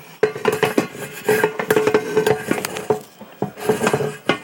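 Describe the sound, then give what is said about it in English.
Metal clatter as the basket of a switched-off air fryer, holding a pan, is pulled out: many rattling, scraping knocks of metal on metal, moderately loud, with no talk. “All right, now I'm going to pull out the basket with the pan inside of it.”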